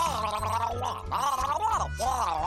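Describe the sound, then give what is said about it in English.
A person gargles: a continuous, warbling, bubbly throat sound with a wavering pitch, broken by a couple of brief pauses. “I don't speak gargle. What is going on? Gargling.”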